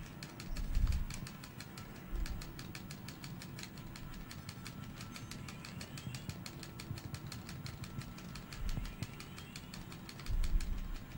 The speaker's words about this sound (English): This is pod racing. God, I love pod racing.